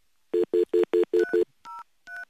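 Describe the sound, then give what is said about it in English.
Touch-tone dialing of a telephone call to a state health board: six quick, evenly spaced beeps, then two longer, separate dual-pitched tones after a short gap. “All right, let's see. Let me dial them.”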